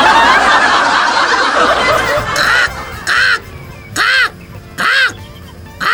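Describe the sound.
A few harsh, nasal crow caws in a short series, each loud and rasping with a rising-then-falling shape, following a stretch of dense, noisy sound.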